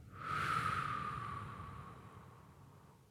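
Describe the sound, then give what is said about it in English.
A single long, deep breath during a relaxation exercise of breathing in through the nose and out through the mouth: a soft, airy rush that swells quickly, then slowly fades over about three seconds, faint and alone. “taking some nice deep breaths as we breathe in through the nose and out through the mouth”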